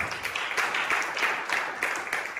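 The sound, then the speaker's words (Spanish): A church audience applauds during a service, a dense, continuous patter of many hands that stays fairly faint and even throughout. “Vamos, denle un aplauso al Señor.”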